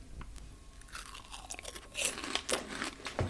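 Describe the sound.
Crunchy Snacker Jacks snacks dipped in spicy tomato sauce being bitten and chewed, a string of faint, irregular crisp crunches and munching that grows sharper and louder in the second half, with no talking.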